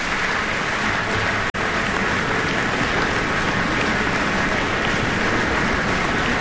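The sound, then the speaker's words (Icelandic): Concert audience applause after a cello concerto, a dense, steady wash of clapping that holds at an even level throughout, broken only by a momentary cut early on. “Er fagnað ákaflega.”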